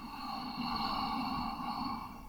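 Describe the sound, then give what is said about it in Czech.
Slow, airy breath noise from a guided breathing exercise that paces a long exhale. It holds at a steady, fairly quiet level for a little over two seconds with no voice. “Zkus výdech dvojnásob dlouhý jako nádech. Nádech a dlouhý výdech.”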